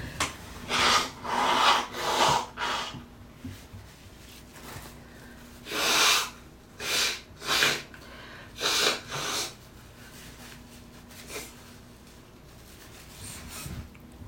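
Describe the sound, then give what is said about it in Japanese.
Someone blowing their nose: a series of breathy, sputtering bursts of air, some short and some drawn out, separated by brief pauses and fading to quieter sniffs toward the end. “ごめんなさい、一回鼻をかみます。”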